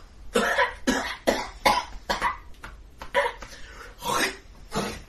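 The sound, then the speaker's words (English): Sickly coughing voiced by a person imitating a frail, elderly man: many harsh, raspy coughs in uneven clusters with short gaps, moderately loud, some hoarse and drawn out. “Coughs sickly several dozen more times.”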